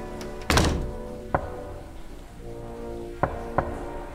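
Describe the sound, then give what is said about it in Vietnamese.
Knocking on a door: a few hollow, dull thuds at uneven intervals, alone against a quiet background. “bỗng nhiên chị nghe có tiếng gõ cửa. Tiếng gõ cửa cứ vang lên như vậy. Cộc, cộc, cộc.”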